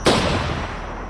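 A single pistol gunshot fired into a person during a killing: one sharp, loud crack followed by a long, slowly decaying rumble, with no voices.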